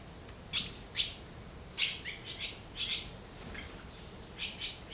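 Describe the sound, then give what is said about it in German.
Hungry barn swallow nestlings, three hatchlings in an old horse stable, call with many short, high chirps in irregular bursts, fairly faint over a steady hiss. “Drei kleine Schwalben sind hier geschlüpft und haben Riesenhunger.”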